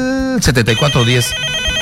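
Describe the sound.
Telephone ringing with an incoming call: a short, loud tonal ring at the start, quickly followed by a voice speaking over the line.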